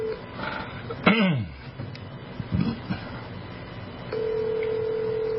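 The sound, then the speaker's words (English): A telephone dials a number: a few short blips and a falling chirp, then a steady, even tone that holds to the end, all fairly faint. “I'm going to try to dial him, too.”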